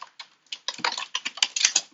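Rapid typing on a computer keyboard while opening a website: many crisp plastic keystrokes in a quick, irregular rhythm, with short bursts and brief pauses, clear and alone.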